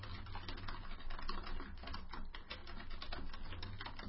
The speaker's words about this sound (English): In fact, I'm going to type that one in.